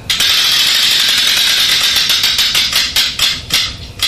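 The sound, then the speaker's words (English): Rapid mechanical clicking of a spinning prize wheel, its pointer ratcheting past pegs in a loud, dense stream of ticks that space out slightly toward the end. “let's give that wheel another spin”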